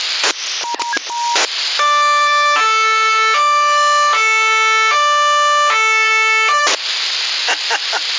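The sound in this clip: A siren tone comes through a CB radio transmission in Sassari, holding for about five seconds and stepping between pitches in a thin, band-limited radio sound. Short radio clicks and bursts come before and after it.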